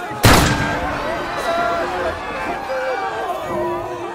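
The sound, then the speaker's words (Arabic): A single sharp gunshot bursts out at the start, fired at an attacker as he rushes a king in a narrated tale, then gives way to a steady murmur of crowd voices. “سدد أحدهم نحو الهاجم رصاصة قتلته في الحال، قبل أن يصل إلى الملك.”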